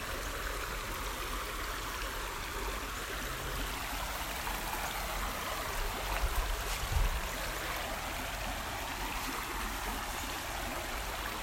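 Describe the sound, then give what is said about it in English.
A stream flows in a park, giving a steady, full rushing and trickling wash of water that holds at an even level throughout, with no talk. “I'm assuming you can hear the stream.”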